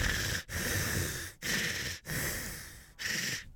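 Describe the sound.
Heavy breathing, loud and hissy, in five long breaths in and out separated by short gaps, with no talk.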